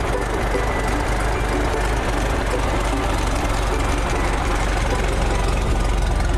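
A vehicle engine runs steadily as a driver hauls rubber sheets to sell in a southern Thai village. The rumble is loud, low and continuous, with a rough texture throughout.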